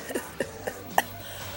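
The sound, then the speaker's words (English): Coughing from someone with a cold: a few short, soft coughs spaced apart, each a brief muffled burst with no talk around them. “Excuse me, I'll try not to cough in your ear.”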